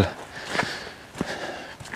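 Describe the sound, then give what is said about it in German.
Footsteps squelching through soft mud beside railway tracks, a few soft, irregular steps with faint rustling between them. “Ich gehe mal raus aus den Schienen und gehe geradeaus weiter. Auch wenn es hier sehr matschig ist.”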